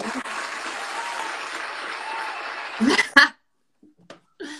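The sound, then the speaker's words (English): Applause after a song: steady, dense clapping that holds for a few seconds and then cuts off, followed by a few brief sounds and a short burst of voices. “I love the applause.”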